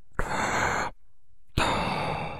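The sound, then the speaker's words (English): Mechanical respirator breathing of a masked figure suspended in a bacta tank: one long, airy hissing breath, a short pause, then a second equally long hissing breath, loud and alone. “breathing noise. And it's like, oh, yeah, this is Vader in there.”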